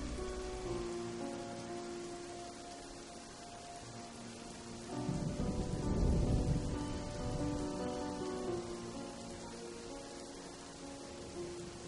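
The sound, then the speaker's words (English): Steady rain during a nighttime thunderstorm over a village. A low thunder rumble swells in the middle and fades, all faint, over a sustained tonal drone. “The weather was furious. Rain began to drop. Thunder crashed upon the sky.”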